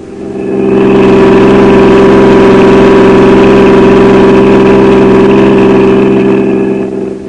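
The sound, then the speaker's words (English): Car engine running while driving, a loud, steady, low droning hum that fades in at the start, holds constant, then eases slightly at the end. “I drove to the first address, the Empire Theater”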